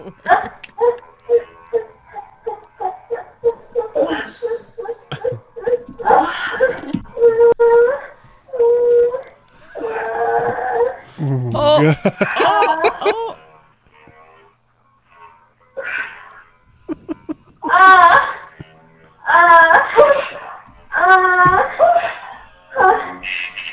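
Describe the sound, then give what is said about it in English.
Tibetan throat singers producing sustained, wavering vocal tones rich in overtones, delivered in separate phrases with short pauses between them, the pitch bending and warbling within each held note. “It sounds like a didgeridoo. Wow. No, it's Tibetan throat singers.”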